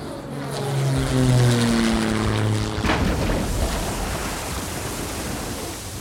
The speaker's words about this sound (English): Until then, sit back, relax, think about three songs and a book you want to keep with you for the rest of your life. Oh, and enjoy the emergency landing.